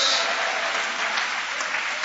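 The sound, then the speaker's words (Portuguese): A church audience applauding during a worship service, with dense, even clapping that holds at a steady level from start to finish. “Isso, e aplaude, e adora, e glorifica o nome de Jesus.”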